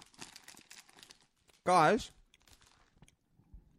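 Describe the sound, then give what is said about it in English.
Crinkling and tearing of a wrapped pack of ant bonbons being opened, in scattered soft rustles, with a loud voice breaking in midway and people talking around it. “And I will open up the ant piss bonbons.”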